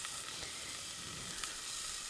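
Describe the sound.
Onions and garlic sizzle softly in a pot while cooking for a one-pot lentil, black bean and rice dish. The hiss is steady and crackling, with no talk over it.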